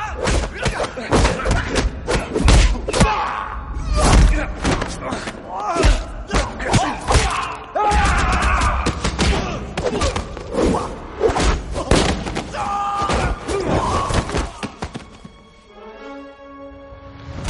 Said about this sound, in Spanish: Comienzan a pegarle, pero él se defiende con seguridad, quitándoselos de encima uno a uno con golpes de artes marciales.